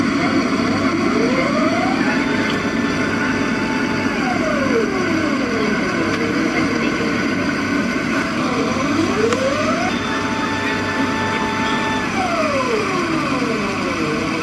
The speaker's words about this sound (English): Or a different aircraft could sound like this.